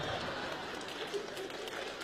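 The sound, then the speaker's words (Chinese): Audience applause at a Beijing stage comedy show: dense, steady clapping that holds evenly for the whole stretch, with voices mixed in. “哥，还鼓掌呢你们？”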